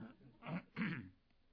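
A man clears his throat with two short, rough, guttural rasps, the second slightly longer, quiet and alone with no talk around them.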